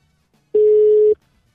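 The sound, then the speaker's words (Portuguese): A telephone tone sounds while dialing out on a call: a single loud, steady beep of about half a second at a constant mid pitch, framed by near silence. “Vamos, vamos discar novamente para o CVV.”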